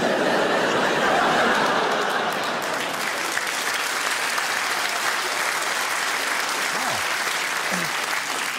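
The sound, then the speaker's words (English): Audience applause after a dark joke at a stand-up comedy show: dense, sustained clapping that holds steady throughout, then eases slightly toward the end. “A round of applause for a Fritzl joke.”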